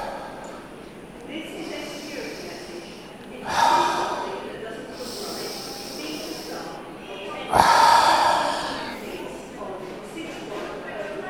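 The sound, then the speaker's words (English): Two deep, sharp breaths are drawn in as snort-like bursts a few seconds apart, set against a steady background noise. “let's finish off that coffee. Few deep breaths in.”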